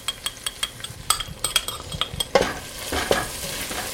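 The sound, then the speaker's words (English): Curry powder and cumin are dumped into hot oil for a lentil dish and stirred. Rhythmic scraping and clinking of a utensil against the pan swells into a louder, steady sizzle partway through. “but the main spice will be cumin. I don't have any, but if I did, one could also add coriander powder. I think I'm just gonna dump all this in.”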